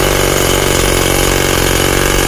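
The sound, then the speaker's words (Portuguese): A jackhammer sound effect: a loud, continuous, rapid mechanical hammering rattle that keeps an unbroken, even rhythm from start to finish. “se fosse o meu relógio, você ia ter que pegar a britadeira aqui, ó.”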